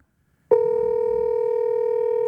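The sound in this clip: A phone rings on a call as a single steady electronic tone that starts abruptly and holds to the end.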